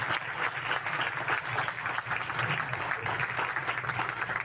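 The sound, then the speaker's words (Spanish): Quiet applause at a public presentation of newly appointed office heads, a soft, continuous patter of many hands at a low, fairly even level throughout. “Aplauso a la Jefatura de Prensa.”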